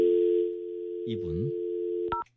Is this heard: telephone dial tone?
yes